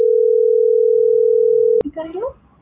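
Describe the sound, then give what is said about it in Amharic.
Ringback tone of an outgoing telephone call, a single steady mid-pitched electronic note held for nearly two seconds, then cut off as a voice starts talking. “ተደውሏል ማለት ነው። ይህ እየጠራ”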